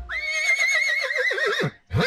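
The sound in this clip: A horse gives one long, loud whinny, high and wavering throughout, that drops sharply in pitch at its end. A brief breathy burst follows just after it.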